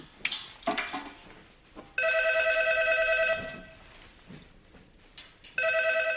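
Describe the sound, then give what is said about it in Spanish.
A telephone rings in a lab in two bursts of bright, steady electronic trilling, the second cut off at the end, with soft rustling and shuffling before and between them. “Walt y Jesse miran hacia el teléfono. Walter lo coge.”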